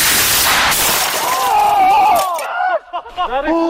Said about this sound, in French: Oh, 108 km/h, autant vous dire qu'il ne reste plus rien du vaisseau qui a explosé en 1000 morceaux.